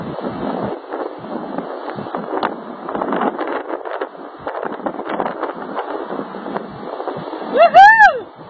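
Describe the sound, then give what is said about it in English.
Wind noise from riding in a convertible car, a continuous rushing, buffeting roar across the whole stretch, broken near the end by a brief, loud warbling tone that rises and falls. “do you still have that little video snippet of me in that awesome convertible? I do have that, and I will play that for everyone.”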